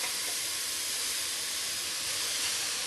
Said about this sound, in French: Je prends les tomates fraîches, préalablement pelées et évidées, et je les fais revenir légèrement.